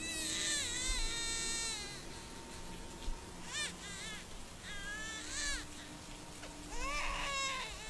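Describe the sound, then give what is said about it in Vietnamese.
A baby crying outside a temple, its cries trembling from the cold. Faint wavering wails rise and fall in a few short bursts over steady background noise. “liền tỉnh giấc, rồi gào lên thật to, tiếng khóc run run vì lạnh. Vị thiền sư đang tụng niệm bị tiếng trẻ con khóc cắt ngang”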